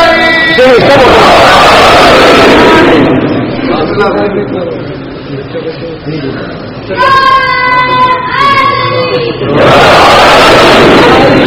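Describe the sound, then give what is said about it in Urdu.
Children chant slogans together in loud, massed bursts at the start and again at the end, with speech in between. “ابھی والدین نے یہ سکھایا ہے کہ نعرہ لگانا, یہ نہیں سکھایا کب لگانا ہے.”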